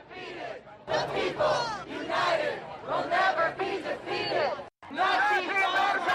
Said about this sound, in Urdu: یہ وہ مختلف نعرے تھے جو مخالف گروپوں نے ایک دوسرے کے لیے لگائے۔